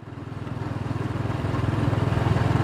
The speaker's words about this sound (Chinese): 机车发动的声音。